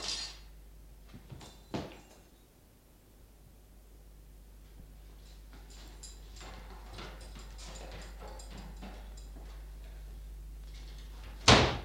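Doors being forced open: a few sharp, thudding bangs, with one near the start and a loud one at the end, separated by a long stretch of faint rustling and shuffling.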